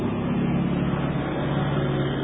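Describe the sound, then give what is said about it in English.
A neighbor's truck driving past gives a loud, steady, low engine rumble with broad road noise that holds level through the whole short stretch, with no voices. “Neighbor truck.”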